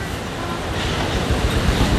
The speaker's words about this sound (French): de l'écume au sommet des vagues. Comme il fait beau, c'est vraiment une vision magnifique. Mais vraiment, c'est une mer un peu déchaînée